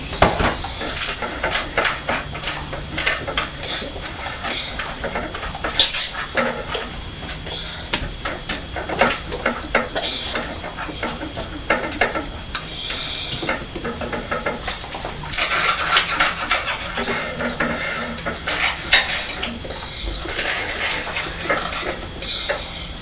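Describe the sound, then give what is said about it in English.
A knife spreads cheese spread onto toast in a kitchen while pasta cooks, making many rough scraping strokes with occasional light clinks of cutlery over a steady hiss. No one speaks. “I'm going to put some Dairy Lean cheese spread on this”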